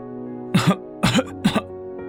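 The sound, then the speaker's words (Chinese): A man coughs three short, raspy times, evenly spaced, over a steady droning background tone. “杨婉怡刚想训斥年轻大夫的时候，隋德新咳了两声。”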